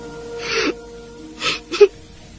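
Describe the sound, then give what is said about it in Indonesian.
Grief-stricken crying from a man: a few breathy, sobbing gasps and whimpers in quick succession, the last ending in a brief, high-pitched whimpering tone. “Seperti seorang bocah, Damaswara menangis menyesali peristiwa yang telah menimpa dirinya.”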